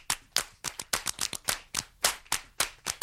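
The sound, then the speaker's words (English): Crisp hand clapping, many sharp claps in a steady rhythmic pattern, moderately loud and alone, with short gaps between the hits. “Come on, clap with me.”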